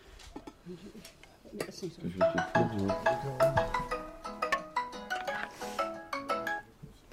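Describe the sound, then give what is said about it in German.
A telephone ringtone for an incoming call during a family dinner. A rapid run of bright melodic notes starts after a quieter opening and keeps going for several seconds before trailing off. “Mittendrin der Anruf einer Sozialarbeiterin, mit der sich Peter Boos regelmäßig austauscht.”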